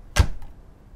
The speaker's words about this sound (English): Where is it? It's in this cupboard behind the doors. Look.